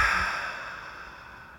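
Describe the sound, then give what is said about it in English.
A single slow, deep breath, heard as a soft, airy exhale that fades steadily over about a second and a half, with no talk. “But what I want to do is just breathe together.”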